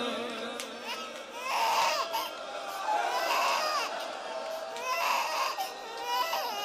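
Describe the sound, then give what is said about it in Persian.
An infant cries in repeated wailing bursts, rising and falling in intensity, with adult voices faintly beneath. “بچه وقتی گریه کنه سخت ساکتش کنه.”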